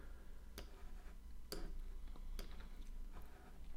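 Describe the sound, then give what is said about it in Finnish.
Sharp, faint computer mouse clicks come while someone writes with the mouse. A few evenly spaced clicks stand alone against a quiet background. “Mä kirjoitan tällä hiirellä, niin tämä käsiala on todella karmeita”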